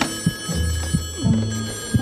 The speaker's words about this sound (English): What's that? Another phone?